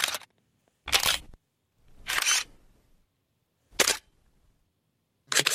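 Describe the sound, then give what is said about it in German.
An analog film camera is opened, closed and wound, in five separate short bursts of mechanical clicks and ratcheting whirs, each followed by silence. “Tja, da geht was auf, da geht was zu, da bewegt sich was und am Ende ist ein Film, den man dann zum Entwickeln bringt und dann kommen dann Fotos raus.”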